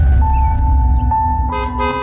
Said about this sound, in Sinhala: ඔයා හෝන් කරන්න එපානේ, මගේ ඔළුව අත්‍රිදනවා.